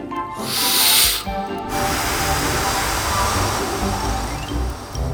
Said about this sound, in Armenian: Լավ, ես հիմա ուժեղ կպչեմ և ձեր փայտի տնակը օդ կթրցնեմ։